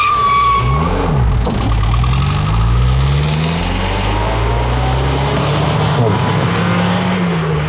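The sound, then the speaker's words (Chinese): A car engine revs loudly as the car drives off, a continuous roar whose harmonic note climbs steadily as it accelerates. “哎，开车！”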